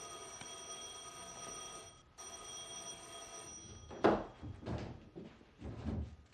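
A doorbell rings at the front door of a home: two long, steady electric rings split by a short pause, followed by a few louder bursts of noise.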